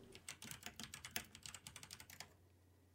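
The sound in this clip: Soft computer keyboard typing: many quick, light keystrokes in an uneven rapid rhythm, faint and alone, stopping short before the end to leave near silence.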